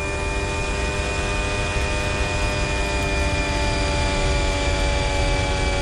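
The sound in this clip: Racing car engine on a circuit, held in third gear at about 90 km/h: a loud, steady, unbroken drone with constant pitch throughout and no voices.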